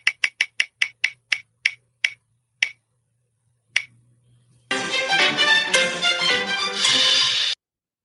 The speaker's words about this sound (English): are you ready to spin the wheel and see what we're going to discuss today?